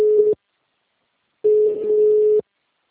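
Telephone busy tone after a dropped call: a steady mid-pitched tone sounds in pulses separated by silence. A short burst at the start is followed by a second burst lasting about a second, with no talk.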